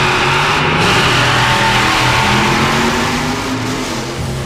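Car engine revving during a race in a parking lot, a loud continuous mid-pitched roar that holds steady and eases slightly toward the end.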